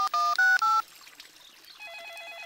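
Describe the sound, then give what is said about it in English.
Three loud touch-tone keypad beeps as a phone is dialed, then a quieter, rapidly warbling electronic ring from a phone lying in a bush. “There's a phone ringing in that bush.”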